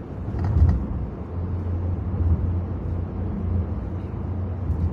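A car drives through a road construction zone near Cranston, producing a steady low engine and tyre rumble. A brief louder surge comes near the start, then the drone continues at an even level with small swells.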